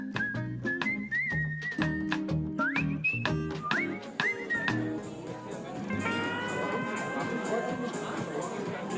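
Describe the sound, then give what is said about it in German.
Background crowd bustle at an outdoor summer festival held by a medical center. A whistled melody in the first half gives way to a dense wash of murmuring voices and sustained tones. “Sie hören es schon im Hintergrund, wir stehen hier auf dem Sommerfest des Medical Center bei bestem Wetter.”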